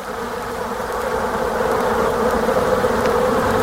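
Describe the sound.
Bees buzzing in a beehive: a dense, steady, continuous hum of many insects that holds level throughout, with no voices.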